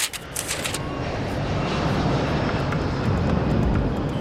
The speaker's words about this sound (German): Aber wir fliegen nicht nach Faltitschen, Rumänien.